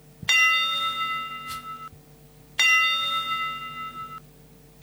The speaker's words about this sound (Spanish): va a sonar el top de la una de la tarde